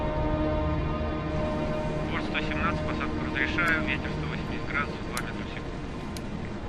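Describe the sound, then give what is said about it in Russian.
Airplane flying through the night sky: a steady, broad engine drone runs unbroken through the whole stretch, with faint thin whistling tones drifting above it. “В ночном небе мимо диска Луны летит самолет.”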